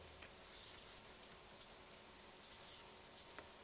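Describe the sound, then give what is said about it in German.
Handwriting with a pen on paper while taking side notes during a Bible reading: faint, scratchy strokes in short bursts over a quiet, hushed background. “Ich schreibe hier neben auf.”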